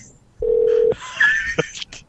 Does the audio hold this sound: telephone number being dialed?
yes

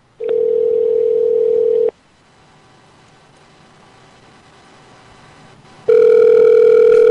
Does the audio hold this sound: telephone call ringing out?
yes

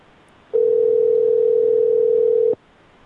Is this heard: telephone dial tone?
yes

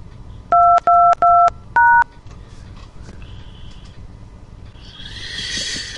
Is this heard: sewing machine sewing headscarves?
no

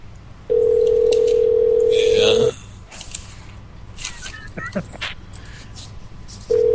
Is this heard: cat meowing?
no

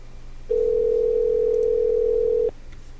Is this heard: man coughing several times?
no

